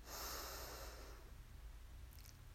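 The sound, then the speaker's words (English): Soft human breathing: a single gentle breath of airy, hissing noise at the start, fading away into near silence. “So breathe in and out.”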